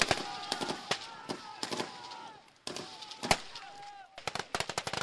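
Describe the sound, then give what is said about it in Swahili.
Gunfire during military training of Somali soldiers run by African Union forces in Somalia: many sharp rifle shots, some single and some in rapid bursts, cracking irregularly throughout. “Hiyo ni milio ya risasi ikisikika nchini Somalia. Lakini safari hii milipuko ya bunduki haisikiki ikiangamiza watu.”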